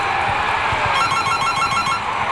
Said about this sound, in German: Das ist mein Chef. Da muss ich jetzt rangehen